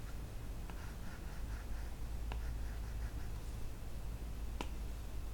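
Drawing strokes scratch faintly as someone works on a picture for a game, a soft, steady rasp with a few sharp clicks, no talk over it.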